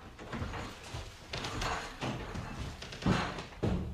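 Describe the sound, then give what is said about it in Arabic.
A door opening as a sound effect in an Arabic radio drama, soft creaking rustles followed by two sharper thumps near the end, fairly quiet throughout. “كرباج مولاتي افتح الباب.”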